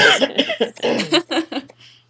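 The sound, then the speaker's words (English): Repeated coughing from a person who is sick, a rapid run of many harsh, choppy bursts in quick succession, fairly loud, ending in a short tail of quieter breath. “Maybe I was hanging out with you guys too much today as I start coughing.”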